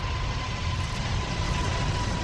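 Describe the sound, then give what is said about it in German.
Continuous, heavy roar of the world's largest passenger airliner taking off on its first test flight. A dense, rumbling wash of engine noise with a thin steady tone running through it stays level throughout. “Am 27. April 2005 ist es aber soweit und die Maschine hebt vor tausenden Zuschauern zu ihrem fast vierstündigen Testflug ab.”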